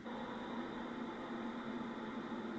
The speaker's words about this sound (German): hört man lange Zeit fast nichts, außer das Rauschen. Das ist das Rauschen vom Mikrofon. Man hört keinen Atemzug. Das ist jetzt eine Frau, die eine sogenannte Schlafapnoe macht.